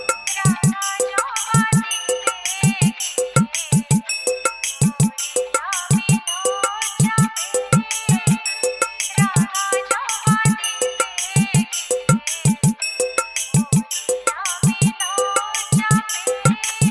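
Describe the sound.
A rhythmic electronic test track plays through tweeter and vocal speakers during a speaker check, with steady, evenly spaced low thumps under bright, repeating high tones at a constant level and no talk.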